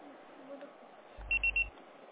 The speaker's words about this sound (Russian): Ваш звонок был переадресован на голосовой почтовый ящик. Можете оставить сообщение после сигнала.